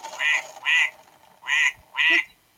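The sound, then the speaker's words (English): Four nasal electronic duck quacks from an animal-sounds toy, loud and alone, in two pairs separated by a short pause. “here's a duck. Here's a duck.”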